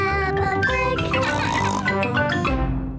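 Pig oinking from a Peppa Pig cartoon: a quick run of loud voiced grunts and snorts with a tonal, cartoonish quality.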